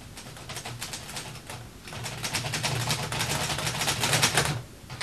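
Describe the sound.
A typewriter clacks away as a report is typed, a rapid, steady stream of sharp key strikes that thickens and grows a little louder toward the end before stopping.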